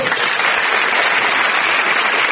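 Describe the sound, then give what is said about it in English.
Audience applause at a comedy event, a dense, steady wash of clapping that stays at an even level for the whole stretch. “So a promising round of applause then for John and Sarah.”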